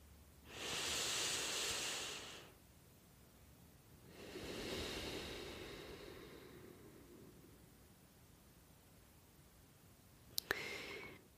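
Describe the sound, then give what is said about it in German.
A deep breath taken during guided meditation: a soft, airy inhale followed by a longer, slower exhale, both quiet and breathy, then near silence with a brief click at the end. “Wir nehmen noch einmal gemeinsam einen tiefen Atemzug und öffnen dann langsam die Augen.”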